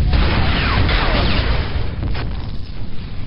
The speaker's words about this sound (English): you just blew up the Imagination Pavilion.